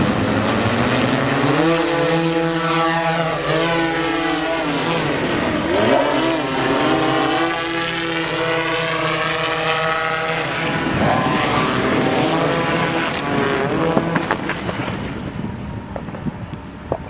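A hover bike engine roars in a video, a loud steady droning whine built of layered tones that waver in pitch, easing off near the end.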